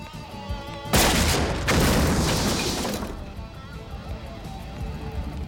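A special-attack sound effect from a fighting video game: a sudden loud whooshing blast, a second surge moments later, then a long fading rush over a faint tonal background.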